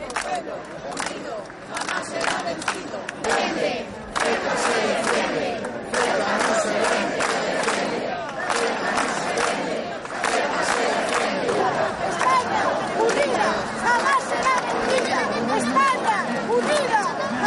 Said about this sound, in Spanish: también tenemos otro sonido, el de la concentración en apoyo al pueblo ceutí de A Coruña de las últimas horas.